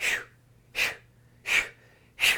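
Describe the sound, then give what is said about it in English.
Four forceful breaths, exhale-focused, during a quick spine-twisting exercise to right and left: sharp, breathy bursts evenly spaced about 0.7 seconds apart, with near silence between them. “And the breath sounds like this. It's exhale focused.”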